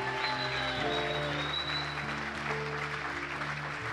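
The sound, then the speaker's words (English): A church audience applauds its pastors with loud, steady clapping that holds evenly throughout, while sustained tones sound faintly underneath. “should put our hands together for Pastors Tracy and Lawrence, who are fantastic.”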